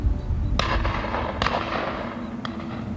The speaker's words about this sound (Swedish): Då och då hör du skottsalvor och ser enstaka spårljus fara iväg som omvända stjärnfall genom natthimlen.